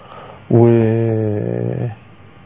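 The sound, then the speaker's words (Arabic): A dog, overjoyed at the man who rescued it from drowning, lets out one sustained whining cry, tonal and fairly steady in pitch, lasting about a second and a half before it cuts off. “انا عايز حضراتكم تشوفوا بقى الكلب قد ايه فرحان بالراجل اللي انقذه.”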